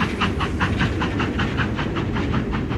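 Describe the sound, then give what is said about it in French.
Rhythmic chuffing of a train pulling out of a station: fast, even puffs of breathy noise repeat steadily throughout, loud and without pause. “Justement, un train sort de la gare.”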